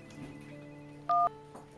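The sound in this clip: A telephone signals an incoming call with a single short electronic tone, a steady two-pitch beep that stands alone above faint background hiss.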